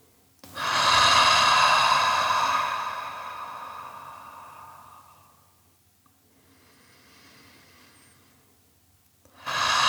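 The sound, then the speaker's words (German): Deep breath in and an audible breath out before a meditation: a loud, long, airy breath, a quiet pause, then a softer, longer breath, with another breath starting right at the end. “Nimm einen tiefen Atemzug, fühl deinen ganzen Bauch- und Brustraum und atme dann ebenso tief und gerne auch hörbar aus.”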